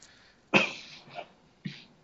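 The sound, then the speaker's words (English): A person coughs three times, first a loud, harsh burst, then two shorter and weaker coughs, each separated by a brief pause. “I'm sorry, I'm coughing, and I don't want to cough into the mic.”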